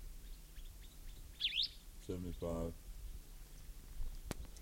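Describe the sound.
A bird gives a quick, high chirp, then a couple of lower buzzy notes follow, over a faint steady hiss.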